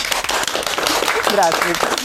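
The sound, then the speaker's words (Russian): An audience at a public conversation event gives a loud, enthusiastic round of applause. Sharp, dense claps run throughout, and voices briefly rise over them near the end. “много людей, которые сейчас бурными аплодисментами продемонстрируют, что они здесь.”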